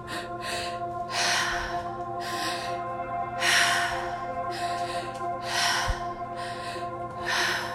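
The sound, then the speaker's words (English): Connected breathing in and out through the mouth, moving from belly to chest: a steady, unbroken cycle of many airy breaths, each swelling and fading, heard over a soft sustained tonal background. “In through our mouth and out our mouth, adding, starting from our belly to our chest and out. So it sounds like this.”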